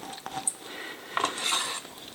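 Metal utensils clatter and scrape against cookware as bell pepper and medium-sized sweet onion are sautéed in a skillet or soup pan. A few sharp knocks stand out over a steady, fairly quiet rustle of cooking.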